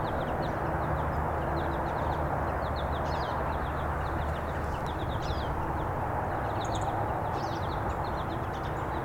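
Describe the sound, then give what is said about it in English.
A lone siskin, a finch, gives its song of thin, high 'zeet' notes and brief chirps, scattered faintly over a steady low background hiss. “That's their song, the zeet. I just can't see where this bird is. There it is.”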